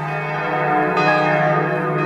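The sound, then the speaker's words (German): Large, powerful church bells ring out at a church in northwestern Berlin, a dense wash of sustained metallic tones layered together. Fresh strikes renew the loud, resonant sound twice as the ringing continues without a break. “Seit 60 Jahren rufen die mächtigen Glocken von Maria Regina Martyrum zum Gebet.”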